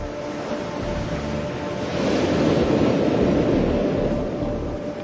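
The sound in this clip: Pacific Ocean waves: a steady, broad roar of surf that swells louder through the middle and eases off again, with some wind rush and no voices.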